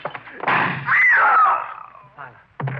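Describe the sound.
A loud gunshot bursts out during a struggle over a gun, with a strained, raised voice crying out around it and a few heavy thumps.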